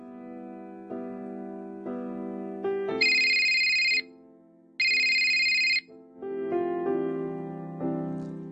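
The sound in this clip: A telephone rings with two loud, high electronic tones, each lasting about a second, set within a steady tuneful ringtone melody, with no voices.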